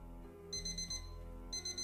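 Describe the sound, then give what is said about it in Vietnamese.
A phone alarm rings at midnight: quick, high electronic beeps arrive in two short bursts, faint, over a steady low humming drone. “12 giờ đêm, tiếng chuông báo thức từ điện thoại vang lên đánh thức Giang.”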